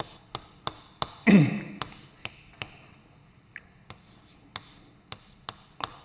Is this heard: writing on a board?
yes